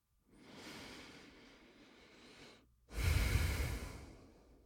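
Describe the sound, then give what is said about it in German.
One deep breath in and out: a long, soft, airy inhale, a brief pause, then a louder, fuller exhale that gradually fades. “Nimm einen tiefen Atemzug ein und aus und dann sprich diesen Wunsch laut aus.”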